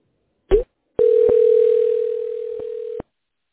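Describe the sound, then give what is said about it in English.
A steady telephone dial tone sounds alone for about two seconds as a call is placed. A short click comes first, and faint clicks break into the tone before it stops. “It's dialing.”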